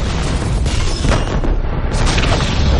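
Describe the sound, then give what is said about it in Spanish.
Explosions set off by a detonator spread along one side of a room, a dense, continuous roar of booms and rumbling blasts that stays loud throughout. “pulsa el detonador. Las explosiones se extienden por un lateral de la sala.”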